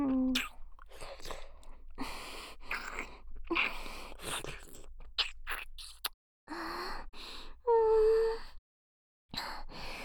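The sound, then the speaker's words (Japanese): Wet kissing and smacking mouth sounds in an affectionate girlfriend roleplay. Many close bursts come in quick succession, mixed with breathy gasps and soft moans, and a brief silent gap falls near the end. “大好きだからほらまたチュー。”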